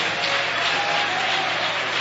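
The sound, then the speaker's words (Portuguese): A church audience applauds to welcome a pastor, making a dense, continuous wash of clapping that stays level throughout without any break. “Então vamos receber o guerreiro de Deus. Com as palmas, o glória a Deus e o aleluia.”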